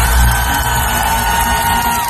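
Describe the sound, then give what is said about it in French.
A crowd of over a thousand spectators at a 24-hour marathon screening of nine films erupts in loud, sustained whoops, yells and cheers as the first film's opening credits start, with the roar staying intense throughout. “Et écoutez la réaction du public au lancement du premier générique, les gens étaient hystériques.”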